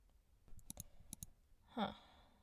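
Mouse clicks made while selecting a section of an orchard on a map: a few soft, sharp clicks in quick pairs, followed by a brief breathy sound, all faint and with no speech.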